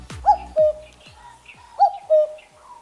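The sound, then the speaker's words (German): A common cuckoo calling, two clear cuckoo phrases of two notes each, a higher note dropping to a lower, slightly longer one, soft and hollow in tone against an otherwise quiet background. “Das ist der Kuckuck.”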